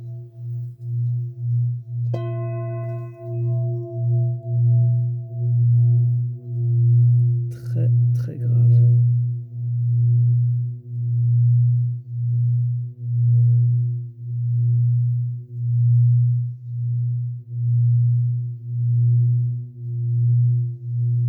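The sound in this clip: A deep grounding singing bowl sings as a stick is circled around its rim, giving a steady low drone with a slow, regular pulsing throb. A bright struck tone rings in briefly early on, and a brief scraping rustle follows midway.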